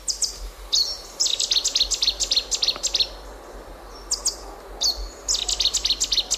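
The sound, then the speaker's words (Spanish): A Cetti's warbler sings among riverside thickets in loud, abrupt bursts of rapid, repeated high notes. Several phrases are split by brief pauses over a quiet background hiss, with no voices. “Este es el ruiseñor bastardo, que tiene así un nombre como muy, ¿no?”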